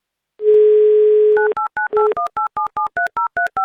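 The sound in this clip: Telephone dialing: a steady dial tone holds for about a second, then a quick run of many short, evenly spaced dual-pitch touch-tone beeps as a phone number is keyed in, loud and with no talk.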